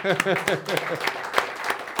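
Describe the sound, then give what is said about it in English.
A church audience claps, a patter of hands spread through the room under and between talking and calls from several voices, fairly loud and brief. “let's clap.”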